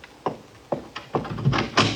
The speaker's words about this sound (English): Remember, as soon as I open the door.